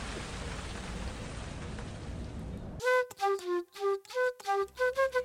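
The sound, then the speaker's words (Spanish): Heavy rain pours as a dense, even hiss with no breaks, then cuts off abruptly and gives way to music. “está lloviendo resto. Caminé a escampar.”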